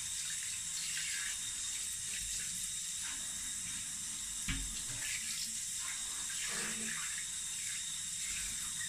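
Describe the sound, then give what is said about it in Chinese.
Tap water running while a cat is rinsed after its bath: a steady hissing stream with small splashes that continues throughout. “好啦，给你洗完了，准备冲了。”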